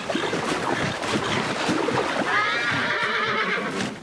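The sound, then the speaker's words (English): A young horse thrashes and struggles in a river, with continuous loud churning and splashing of water and a horse's whinny rising above it. No voices are heard. “Jim as he struggles to keep the colt afloat, its hooves thrashing below the surface.”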